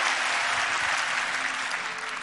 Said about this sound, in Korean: 한번 다 일어나보세요. 네, 우리 박수로 한번 축복하고 있습니다.